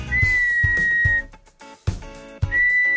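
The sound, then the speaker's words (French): A person whistles to imitate an audience member whistling at a singer on stage: two long, shrill, steady notes separated by a pause, the second shorter, with rougher lower sound beneath them. “et pendant toute la chanson me sifflait.”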